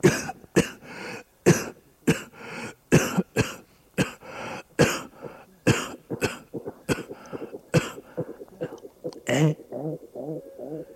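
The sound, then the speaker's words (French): Dry, hacking coughs from a man bending over to read, set off by dust: a long run of sharp, evenly spaced bursts that gradually soften into rougher, throaty, voiced coughing toward the end. “Il se penche pour lire. Une poussière le fait tousser.”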